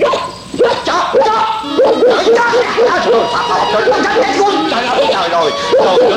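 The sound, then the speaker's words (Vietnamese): A vicious dog barks and yips in many rapid, high, arching bursts, loud and nearly continuous, with excited human voices mixed in. “nuôi chi cái giống chó ác ôn này, cắn rách mẹ cái quần áo cổ của tôi rồi”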